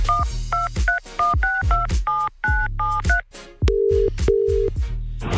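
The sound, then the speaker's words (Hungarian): Touch-tone telephone keypad beeps as a radio studio dials a contest winner: a rapid run of many short dual-tone presses, then two longer, lower ringing tones, all over a thumping low beat. “Tárcsázom is, lássuk ki ő.”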